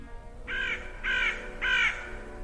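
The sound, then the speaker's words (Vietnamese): Crow caws, mournful and harsh, in a dark hospital corridor: three evenly spaced calls, each about a quarter second, standing out clearly against a faint low hum. “ở giữa hành lang tối tăm của lầu 2 bệnh viện Kim Hồng, từ đâu đó vang lên tiếng quạ kêu ai oán.”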